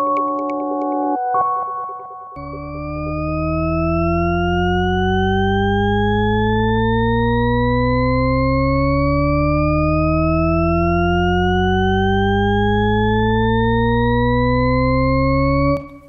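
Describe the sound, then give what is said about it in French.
A Shepard tone, the endlessly rising pitch illusion: after a brief steady chord, layered tones glide upward together without pause for about fourteen seconds, loud and continuous, with no voices. “Ce que vous venez d'entendre s'appelle la gamme de Shepard, en anglais le Shepard Tone, pour ceux qui voudraient le réécouter. Vous avez eu l'impression d'avoir une note qui monte jusqu'à l'infini.”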